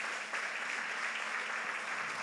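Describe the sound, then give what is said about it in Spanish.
A church audience applauding during a sermon, with a steady, dense patter of many hands clapping at moderate level throughout and no break. “Satanás ya no tiene la victoria sobre usted, y eso vale un aplauso en el nombre de Jesús.”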